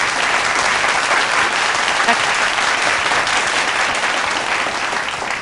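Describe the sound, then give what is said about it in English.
Audience applause, a thick, continuous roar of many hands clapping that stays loud and even, easing slightly at the very end. “And give yourself an applause.”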